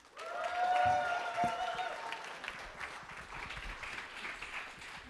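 An audience at a Star Wars convention panel applauds a moderator's introduction, a steady crackle of clapping that swells early, then eases and carries on through the end.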